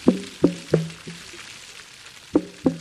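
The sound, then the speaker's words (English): A gray whale calling underwater on its migration between the Arctic and Baja California: short, low, resonant knocking pulses, four in quick succession, a pause, then two more, over a faint hiss. “That's the sound of a gray whale underwater, recorded by the Scripps Whale Acoustics Lab”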